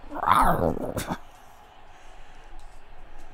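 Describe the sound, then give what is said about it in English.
The King Panther growl noise from a video game is a short, snarling burst at the very start, followed by a quiet low background. “Stupid King Panther noise every time you do something.”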